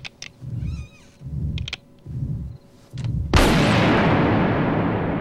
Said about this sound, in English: The investigator stays still, holding the pistol out in front of him as he watches dark blood oozing from the hole in Marty's chest.